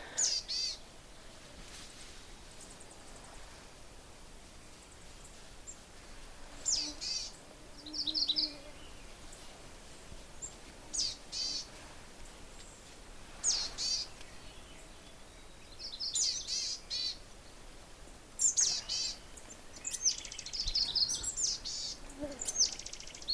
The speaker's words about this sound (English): Hear that little da-da-da-da-da-da, like a trill? That's also coming from the boreal chickadee. It's a sound that it makes that black caps don't.